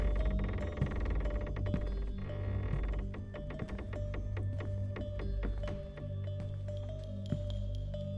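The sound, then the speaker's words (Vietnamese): Heavy iron door creaking open, a dense run of metallic clanks and clicks over a steady grinding tone, loud and continuous throughout with no voices. “Thế nhưng cánh cửa sắt đã được mở ra.”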